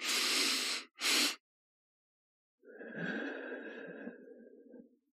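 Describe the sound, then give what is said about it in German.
Breathing exercise: two quick, sharp inhales through the nose, the second very short and right after the first, then a pause and a long, softer exhale through the mouth that slowly fades. “Du atmest zweimal durch die Nase ein und dann länger durch den Mund aus.”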